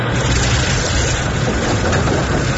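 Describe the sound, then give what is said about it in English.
Steady machine hum of a generator engaged at full main power: a dense, loud rumbling drone with a low throbbing undertone that holds constant from start to finish, with no voices. “Main power to maximum. Biogenic generator engaged.”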